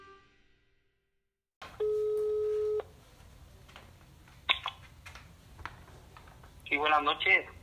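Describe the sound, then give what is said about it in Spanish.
A single steady telephone line tone sounds for about a second as a call is placed to a doctor. Quieter line noise and a few faint clicks and rustles follow. “ahora tendremos nuestra segunda llamada telefónica con el doctor Carlos Martín Santos Llaven”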